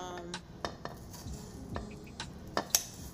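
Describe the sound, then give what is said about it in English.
Onions are cut with a knife, giving scattered faint taps and light clinks at an uneven pace, with no talking. “Sorry, I'm cutting these onions. I think I cut too much.”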